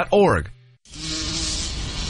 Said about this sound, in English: Mom, why do bees sting? I guess they need a way to protect themselves. But they're busy making honey. Yeah, so we shouldn't bother them. If we leave them alone, they'll leave us alone. Then why is this one bothering us?